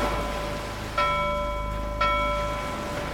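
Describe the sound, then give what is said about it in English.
A ship's bell on a cruise ship strikes clear metallic notes about a second apart, each ring sustaining a bright tone over a steady low background hum. “Oh, that's four bells.”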